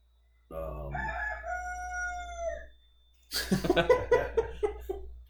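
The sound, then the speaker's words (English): A rooster crows on a cattle farm, letting out one long, loud harmonic call that slides downward, followed after a short pause by a choppier burst of mixed sound. “that's our crazy rooster.”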